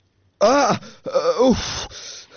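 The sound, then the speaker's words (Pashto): A person cries out in their sleep from a nightmare with two strained, wavering moaning wails, the second longer and trailing off into a breathy gasp, heard alone. “خوب کې دې ژړل؟ توبه توبه، ډیر بد خوب مې ولیده.”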